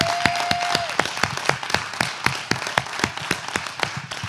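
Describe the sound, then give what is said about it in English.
Applause from an audience: sharp individual claps land in a fairly steady rhythm over a softer bed of scattered clapping, continuing evenly to the end. “I feel like we're all supposed to applaud you as in heaven applauds you. So woo!”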